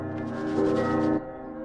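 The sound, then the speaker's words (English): Large bells in a cathedral bell tower are swung and rung by hand. A sustained, resonant metallic tone swells, then drops away abruptly. “In the bell tower, Quasimodo rings two bells by pushing them with his hands.”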